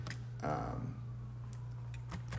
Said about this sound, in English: So I can start now typing in here.